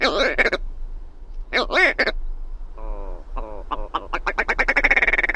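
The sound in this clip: Courtship calls of a willow ptarmigan, a vocal northern bird related to pheasants: loud harsh nasal croaks and quacking notes, then a pulsing croak that becomes a rapid rattling series of calls toward the end.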